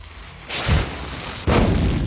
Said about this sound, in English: Look at that! A powder that explodes!